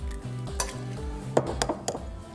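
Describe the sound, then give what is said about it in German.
A whole egg added to semolina pasta dough in a bowl, heard as a few sharp clinks and taps of utensil against bowl, fairly faint over a low steady background. “Dann mache ich ein ganzes Ei mit rein.”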